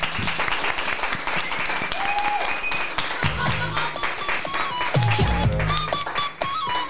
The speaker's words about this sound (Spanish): Un fuerte aplauso.